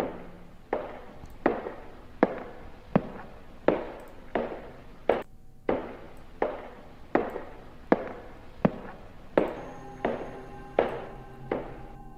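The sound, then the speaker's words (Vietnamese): Steady footsteps knock on a wooden floor in an even, slow walking rhythm. The many regular thuds are fairly clear and alone, and a faint steady tone joins near the end. “Tiếng bước chân đang đi đều đều, đều đều gõ lên trên sàn gỗ.”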